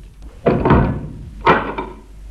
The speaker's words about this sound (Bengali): নিচে দরজাটা বন্ধ করে দাও।